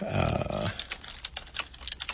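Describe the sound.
Typing on a computer keyboard: irregular, light key clicks, faint and scattered, following a brief burst of louder noise at the start.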